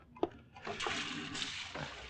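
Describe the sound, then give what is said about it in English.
Water runs from a tap while hands are washed, a soft, steady hiss that carries on for most of the moment after a faint knock at the start. The sound is quiet throughout. “Wait till I wash my hands.”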